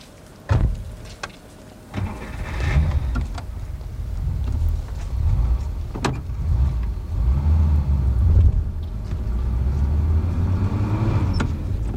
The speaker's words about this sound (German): Also, Sie steigen aber bitte hinten ein. Wir fahren noch am Café Wien vorbei, dort wartet meine Frau auf mich.